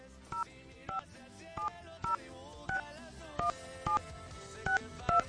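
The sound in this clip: A telephone number is dialed on a touch-tone keypad: nine short, evenly spaced electronic beeps at a moderate level, each a brief two-tone chirp, over a quiet hiss.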